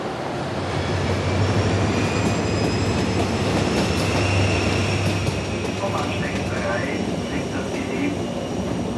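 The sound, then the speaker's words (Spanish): A train runs through a station with a loud, continuous rumbling and rattling roar, thin high wheel squeals rising now and then above the steady noise. “Caminan por una estación y se suben a un tren.”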